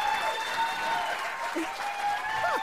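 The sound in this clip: Studio audience applause sound effect, a steady wash of many hands clapping at an even, moderate level with a few faint tonal sounds above it.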